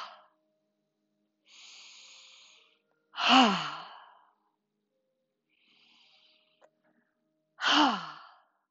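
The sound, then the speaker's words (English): Two loud, breathy "ha" exhales voiced by a person in a therapeutic breathing exercise, each with a falling voiced tone. Softer airy breaths come between them, and no one speaks. “The sound we use here is ha.”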